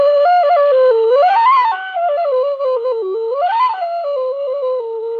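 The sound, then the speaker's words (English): An Ethiopian washint, a long bamboo-like end-blown flute with no mouthpiece, plays a breathy, wavering melody. The sustained tone is steady and fairly loud, swooping upward and back down twice. “this instrument is from Ethiopia, and it's called a washint. It's a long tubular piece. It looks like a piece of bamboo”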